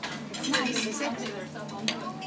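A dish is set down on a table amid a continuous clatter of plates and cutlery over a busy, noisy background, with one sharper knock near the end.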